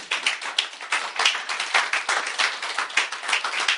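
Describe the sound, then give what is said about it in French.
An audience applauds during a church worship service: dense, steady clapping from many hands, loud and continuous throughout, with no single voice standing out. “Quelqu'un peut acclamer le Seigneur.”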